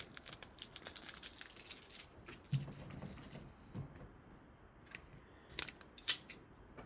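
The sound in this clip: Tape being peeled off a phone makes crackly, tearing rustles in a run of sharp bursts, with the loudest snap near the end.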